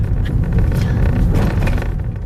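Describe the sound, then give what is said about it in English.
A car driving along a quiet street: a steady low road rumble and engine hum holds at an even, fairly loud level throughout, with no voices. “I'm driving with Alejandra to the house now.”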